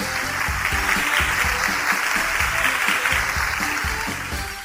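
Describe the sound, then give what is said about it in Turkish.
Applause for a child who answered a religious quiz question correctly, a steady, fairly loud wash of clapping that fades slightly toward the end, with no voices over it. “Alkışlayalım o zaman”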